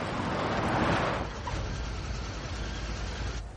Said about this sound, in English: He drives a Volvo across the field and stops at the seascape gate.